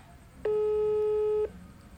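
A single steady telephone ringback tone on a call that goes unanswered, a clean pitched beep lasting about a second over faint background hiss.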